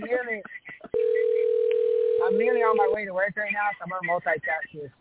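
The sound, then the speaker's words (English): A telephone call rings out unanswered. One steady ringing tone holds for about two seconds while people talk before, over and after it. “I guess I'm going to hang up on Shane. I don't think he's going to answer.”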